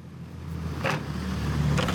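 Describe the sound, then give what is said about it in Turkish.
A modified car engine runs smoothly with no vibration, giving a steady low drone that holds even throughout, with some breathy wind-like hiss mixed in. “Motorda hiç titreme yok. Yağ gibi akıyor. Bu arabayı kim modifiye ettiyse o beyefendiyi ya da hanımefendiyi tebrik ederim.”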